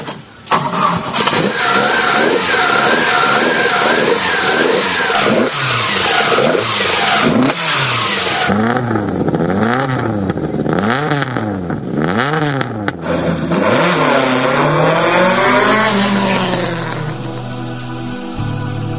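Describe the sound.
A car engine starts and revs hard, its pitch surging up and down in repeated sweeps before holding a steadier, lower drone, loud throughout with no voices.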